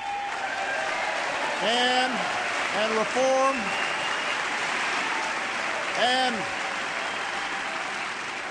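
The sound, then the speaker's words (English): Hesitant applause from an audience at a political speech: a soft, steady patter of scattered clapping runs throughout while a voice keeps talking over it. “You can hear the hesitant applause on some of those lines.”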